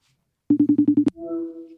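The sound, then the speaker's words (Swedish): A phone call rings out to a TV chef in Luleå: six rapid, evenly spaced beeps, a sharp click, then a steady sustained tone, with no voices. “Så ja, men vi slår en signal och ser vad han is up to.”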